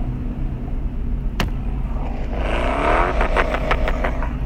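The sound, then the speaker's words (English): Car driving home from work on the road, a steady low rumble of engine and road noise that holds throughout, with one sharp click partway through and no talking. “We're driving home from work, people. Just driving home.”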